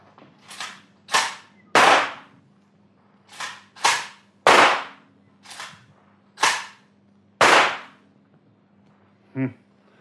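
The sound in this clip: Sharp gunshot bangs ring out in a shooting contest at a target, many loud, crisp cracks in an uneven series with short pauses between them, ending with a shorter, different-sounding hit.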